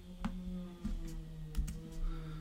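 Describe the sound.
Faint key clicks from a computer keyboard as someone types messages to Facebook friends, a few separate taps spread out over a steady low hum.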